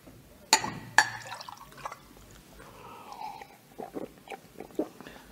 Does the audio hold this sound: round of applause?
no